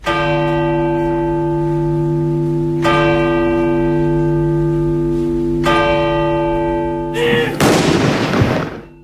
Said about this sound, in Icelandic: kirkjuklukkur hringdu og skoti var úr fallbysum